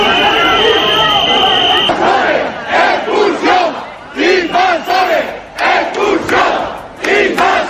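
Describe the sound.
An angry crowd of residents in Ceuta shouts outside hotel doors, a loud, dense roar of voices that breaks into many rhythmic chanted bursts in the second half.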